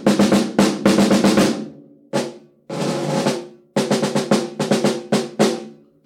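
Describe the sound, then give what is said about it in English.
A snare drum on a drum set played alone: loud, crisp strokes in quick clusters, a sustained roll and a few isolated hits, separated by short pauses. “So, snare drum sounds like this.”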